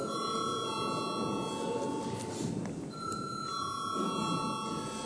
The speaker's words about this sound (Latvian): Lūdzu zvanu.